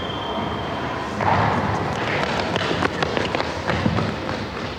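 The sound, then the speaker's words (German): Footsteps of two small boys running up a staircase: a quick run of light thuds and taps over a steady, noisy background, with no voices. “Die beiden kleinen Jungen von vorhin stürmen die Treppe hoch an mir vorbei und verschwinden im obersten Stock.”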